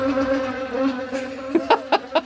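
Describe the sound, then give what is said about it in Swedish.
Buzzing insect tones recorded for use as musical pitches: a steady harmonic drone with a slight waver for about a second and a half, followed by four short, sharp bursts. “De här insektstonerna hade alltså spelats in av Gabby Stenberg.”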